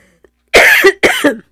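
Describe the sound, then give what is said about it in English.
A person coughs twice in quick succession, two sharp, loud, harsh bursts with a brief gap between them, heard alone without talk. “I don't know why I'm coughing, probably because I'm choking up.”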